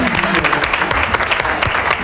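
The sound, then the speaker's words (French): An audience applauds a young speaker at a live radio debate event, a short burst of dense, even clapping at full strength. “On n'applaudit pas. Applaudissez pour Mika, s'il vous plaît.”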